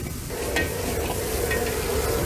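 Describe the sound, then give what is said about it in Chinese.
Steady sizzle and scrape of stir-frying in a wok as sesame oil is tossed through a dish seasoned with MSG, sugar and vinegar. The hiss is continuous and fairly loud, with no talking. “再加入适量的香油翻炒均匀即可出锅。”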